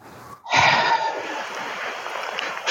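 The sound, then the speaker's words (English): A deep breath in is followed by a harsh, forceful exhale, guided as part of a breathing exercise. A short, quieter intake comes first, then an abrupt, loud, noisy rush of breath that sustains for about two seconds before tapering. “I want you to take a deep breath in. Just take a deep breath in and exhale deeply, harshly, like that.”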